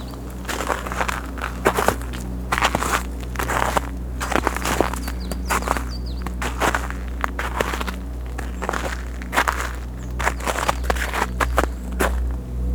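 Crunching footsteps on an ice-crusted, snow-cleared trail in a mountain forest, with many steady, irregular crisp steps over a low, continuous rumble.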